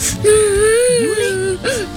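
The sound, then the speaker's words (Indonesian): A child cries in wavering, tonal whimpers and wails. The pitch slides up and down through a long sob, then a short second cry breaks in near the end. “Loh, Nak, kenapa kamu nangis?”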